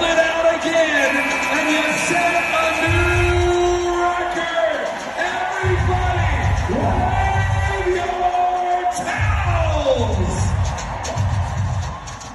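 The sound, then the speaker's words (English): At Game 2 of the WNBA Finals, Las Vegas Aces against Connecticut Sun, the basketball arena crowd cheers in a loud, continuous roar, with yells and bellows breaking through. “sound you just heard was from Game 2 of the WNBA Finals between the Las Vegas Aces and the Connecticut Sun.”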